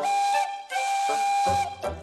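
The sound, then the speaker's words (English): A steam locomotive whistle for an emerald green engine that pulls passenger coaches or freight gives a shrill, sustained hissing tone. It breaks briefly in the middle, so it sounds like two long blasts, with no talk. “an emerald green engine who can pull passenger coaches or freight, and has a whistle that sounds like this.”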